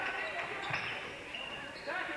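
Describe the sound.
A basketball being dribbled on a court by a player working past a defender, a few quick bounces heard beneath an announcer's play-by-play and murmuring crowd.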